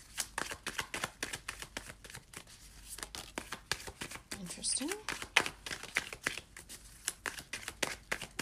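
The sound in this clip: Tarot cards are shuffled and drawn during a general reading, making many quick, crisp papery snaps and riffles in irregular bursts that run through the whole stretch at a moderate level.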